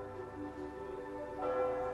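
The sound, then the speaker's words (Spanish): Church bells ring in a Mediterranean town, a steady layer of sustained, overlapping metallic tones that swells a little louder toward the end, with no clear individual strikes. “Las campanas de una iglesia suenan de fondo”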